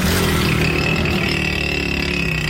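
Motorcycle engines with their silencers removed roar loudly and continuously, a steady, heavy drone with a thin tonal whine running through it and no clear pauses.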